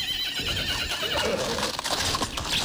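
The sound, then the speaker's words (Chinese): A horse drawing a carriage near the northwest corner of Chang'an whinnies with a wavering, high neigh, while hoof clip-clops sound beneath it. “马车走了一会儿，已经行到了长安城的西北角”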